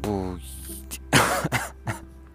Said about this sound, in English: It's also very cold out here, and I'm coughing, and my throat is very dry